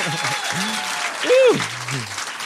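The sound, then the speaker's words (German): Audience applause fills a lively evening show in Kreilsheim celebrating a 10.0 score: steady dense clapping with whoops and shouted voices rising over it, swelling loudest toward the middle. “Und das jetzt in Applaus ummünzen.”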